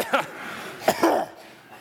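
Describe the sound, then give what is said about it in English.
An audience clears their throats together on a spoken count, producing a few short, rough bursts of coughing and throat-clearing from many people at once, the last one stretching briefly longer. “So why don't we all on the count of three just clear our throats right now. Ready? One, two, three.”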